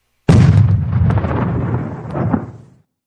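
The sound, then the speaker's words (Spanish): An artillery shell is fired and explodes with a sudden heavy boom, followed by a long rolling rumble that swells again briefly before fading out. “No puedo ver el impacto del proyectil, señor. Hay una gran nube de humo.”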